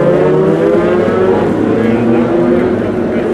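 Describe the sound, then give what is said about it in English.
An LMP2 prototype race car at an endurance race start, its engine a loud, steady droning roar with layered harmonics held at an even level throughout. “There goes the LMP2 jumbo car of Jan Lammers.”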